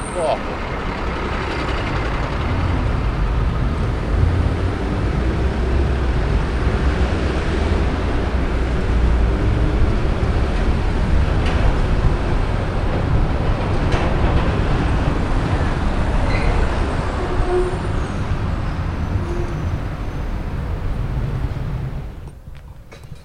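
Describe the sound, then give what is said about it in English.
A dustbin lorry drives ahead of a cyclist, making a loud, steady, low engine rumble that holds without a break for most of the time and drops away near the end. “Riding along behind a dustbin van. Lovely smell.”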